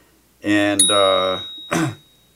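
A notification bell sound effect rings out as a bright, resonant chime that sustains and fades, then gives one shorter second ring.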